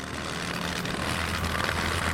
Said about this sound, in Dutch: De rechtermotor staat in brand en de Dakota verkeert duidelijk in moeilijkheden.